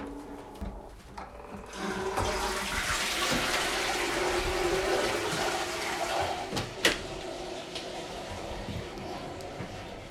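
A toilet being flushed: a rushing swirl of water that swells within the first two seconds and then pours steadily at an even level for several seconds before easing slightly near the end.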